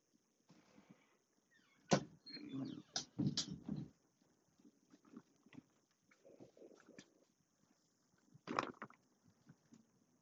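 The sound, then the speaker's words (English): A door is opened to let a cat in. A few sharp clicks and knocks stand out, with a soft rattle between them and quiet gaps, and no one speaks. “But, excuse me, I have to let my feline in. One second.”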